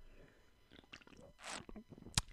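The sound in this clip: Drinking from a cup in ASMR style: soft wet mouth noises build to a short, louder slurp, followed by a sharp click near the end, all fairly quiet.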